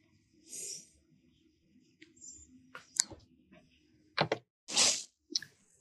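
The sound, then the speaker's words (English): Cloth rustles close by in a few separate bursts of broad, noisy swishing, with small clicks between them and quiet gaps in between. “Hope all this this cloth sound isn't being too disruptive to my outro.”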